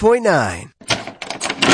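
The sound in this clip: A door creaks open as a real estate ad sound effect: a drawn-out, wavering tonal creak gives way to a few broad, noisy bursts.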